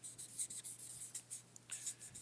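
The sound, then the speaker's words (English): A pen writes words on a sheet of paper, making quiet scratchy strokes in quick, irregular bursts with short pauses between them. “in this box, I write the words action, attitude, and behavior.”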